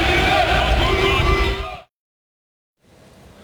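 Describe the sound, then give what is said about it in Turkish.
About 50 football fans chant and yell in support at the national team's first training session in Los Angeles. Loud, rough massed shouting lasts just under two seconds, then cuts to silence before faint crowd noise returns. “İdmanı izleyen yaklaşık 50 taraftar yaptıkları tezahüratlarla milli futbolculara desteğini gösterdi.”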